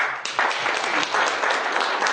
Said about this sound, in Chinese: 在此呢，我们也是再次用热烈的掌声感谢一下我们的老师